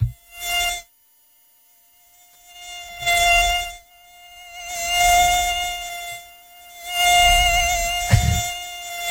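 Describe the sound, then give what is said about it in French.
A mosquito whines with a thin, steady, high-pitched drone while someone tries to sleep, swelling into a few louder, noisy bursts separated by quieter stretches. “Attends, il est là le moustique ou pas?”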